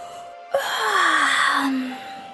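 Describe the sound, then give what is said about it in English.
A voiced yawn for a very tired storybook train, a single breathy exhalation of over a second with a low tone that slowly falls before fading. “He yawned.”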